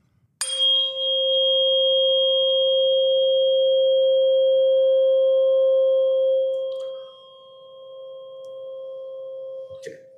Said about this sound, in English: This is the 528 hertz, just like the same hertz frequency that I said cleared up the waters in the BP oil spill.